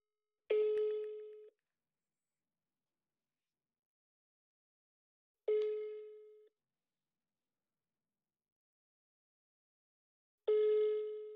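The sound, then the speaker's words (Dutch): Ringback tones sound from a telephone line while calling someone: three evenly spaced, steady beeps, each about a second long, separated by long silences, with no voices. “laten we even kijken of we Peter Hiballa even kunnen spreken, wat hij ervan vindt. Laten we even kijken of hij opneemt.”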